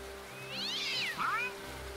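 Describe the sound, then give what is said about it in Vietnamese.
A black cat at a door gives a long, drawn-out meow that climbs and then bends downward, fairly faint, over a low, steady hum. “Hơn nữa con mèo đen còn đang cào vào cửa.”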